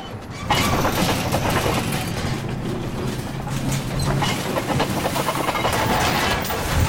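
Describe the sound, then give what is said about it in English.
A snowplow truck drives down a track through the snowy night, its heavy engine giving a loud, steady rumbling and rattling drone that continues without a break throughout. “Out in the night, the snowplow truck heads down a track, lights blazing.”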